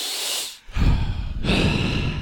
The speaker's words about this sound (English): And we'll breathe heavy.